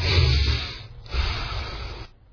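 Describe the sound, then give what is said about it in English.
A person takes a deep breath, heard as two long, airy rushes of breath separated by a short pause. The breathing is soft and noisy, with no talk. “take a deep breath.”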